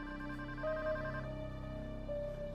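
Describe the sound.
A telephone rings for a hostage-taker's call to a parents' home, a steady electronic ringtone with layered sustained notes; a brighter higher tone enters twice, with no voices over it.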